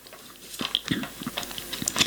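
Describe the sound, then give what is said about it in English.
Paper being thrown about makes a faint run of irregular crinkles and rustles, with many small, sharp crackles scattered unevenly through the stretch. “Here's my, she says, throwing paper about all over the place.”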